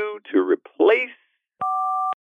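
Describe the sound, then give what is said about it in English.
Telephone tone ahead of a number-not-in-service message, heard as a steady, loud electronic beep of about half a second that follows a short stretch of talking. “Sorry, the number you have dialed is not in service at this time.”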